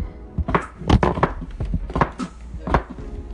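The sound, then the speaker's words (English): A knife chops unpeeled potatoes into small squares, producing a series of sharp, irregular thunks against a cutting board, with no talk. “so before I cook my potatoes, I like to cut them up because it's just easier that way. I'm gonna go ahead and leave the peel on.”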